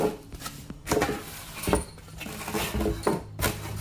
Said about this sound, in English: my X-Acto knife is dull because I haven't had to do this in a while. But there we go.